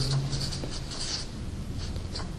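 Faint scratching of writing, with a few short strokes in quick succession, soft and steady with no voices.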